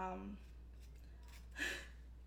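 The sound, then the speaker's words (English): A knife cuts the end off a vegetable with one short, crisp crunch about halfway through, after a brief bit of voice at the start. “Just gonna cut off the ends. And then if there's any weird stuff going on here, like dry parts or whatever, it would be nice if you cut those off for your guests.”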